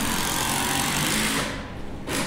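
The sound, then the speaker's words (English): A power driver sinks a 4.5-inch screw into cedar wood, a steady, loud, high whirring buzz that dips briefly near the end, then resumes. “She's screwing the, it's an actually 4, 4.5 high screw that she's screwing into the cedar log, or it's not a log,”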